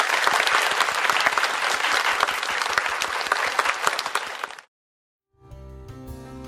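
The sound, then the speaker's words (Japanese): An audience applauds after a piano duet at a charity concert, dense sustained clapping that cuts off abruptly, followed by a short silence and then a steady tonal sound. “皆様改めて盛大な拍手をお願いいたします”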